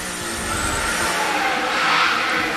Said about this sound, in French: À la chicane, freinage.